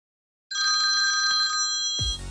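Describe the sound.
A telephone rings in a single bright, trilling electronic burst lasting about a second. A sudden loud, low, broad noise cuts in abruptly after it.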